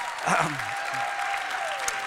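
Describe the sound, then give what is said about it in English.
Audience applause at a church service honouring a prison ministry team, a steady wash of clapping that holds for about two seconds, with a voice speaking over it. “Come on, give these guys a round of applause.”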